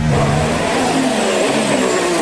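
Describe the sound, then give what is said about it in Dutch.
Onboard Formula 1 engine sound from Carlos Sainz's car at the 2023 Monaco Grand Prix, heading through the Casino section under braking and throttle. The engine whine is loud and continuous and fills the whole clip with no voices. “Dit zijn de onboordgeluiden aan boord van de auto van Carlos Sainz. Bij het casino. Remmen, weer op het gas.”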